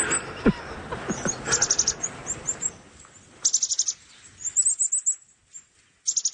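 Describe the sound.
Bird calls played back from a phone app: clusters of rapid, very high-pitched chirps and trills coming in several bursts, with some lower, rustling noise near the start.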